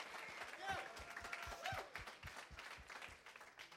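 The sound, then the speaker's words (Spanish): Faint applause from a church audience, steady clapping with a few distinct sharp claps standing out as people talk over it. “Let's give a hand to Joshua. Thank you. Démosle un aplauso a Josué.”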